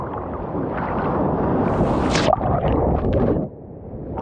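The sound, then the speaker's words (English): An ocean wave rolls in at a beach where a rip current is pulling swimmers out. A steady rushing wash of water builds and surges, then drops off abruptly near the end. “Now you have a wave coming”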